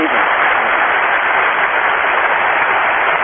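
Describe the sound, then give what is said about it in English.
An audience claps for a speaker. The applause is a steady, dense, loud patter that holds at an even level for the whole clip. “The crowd in attendance is insane. Hundreds and hundreds of people all clapping for Mr. Rainbow.”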